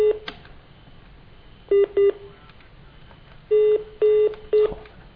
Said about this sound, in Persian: باز هم سعی خودمون رو بکنیم ببینیم که ریدیال بزن